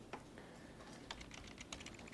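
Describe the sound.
Faint computer keyboard typing, with a few quick, irregular keystrokes clicking over a low background hiss.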